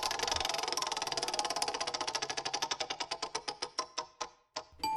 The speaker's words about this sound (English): Let's find out which songs are going head to head this episode. Are you ready, fighters? Let's spin the wheel.